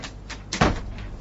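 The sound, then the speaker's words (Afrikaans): A door being shut with one dull, low thump, surrounded by faint rustling noise. “Ja, maak asseblief die deur toe.”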